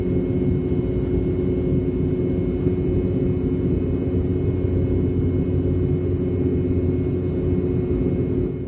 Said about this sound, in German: Ton von Triebwerken des Typs BR-715 des britischen Herstellers Rolls-Royce. Sie wurden speziell für die Boeing 717 entwickelt und tönen hoch oben so.